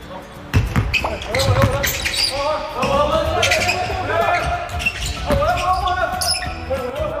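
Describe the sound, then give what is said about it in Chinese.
A basketball bounces over and over in a basketball gym during team training, with many quick, thudding dribbles under steady voices. “篮球馆。”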